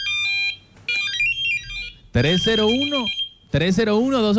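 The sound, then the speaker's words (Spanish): A pager beeper sounds a quick burst of high electronic beeps, then a warbling pattern of tones. Louder voice-like sounds follow, with a held high tone running over them. “¿Qué dice nuestra gente, hermano? Ese sonido es de un beeper.”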